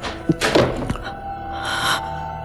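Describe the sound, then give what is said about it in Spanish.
A door bursts open in a Spanish radio drama: a sharp knock, then a heavy crashing burst and one more thud, all over a steady sustained tonal bed that continues afterward. “la puerta se abrió de un golpe.”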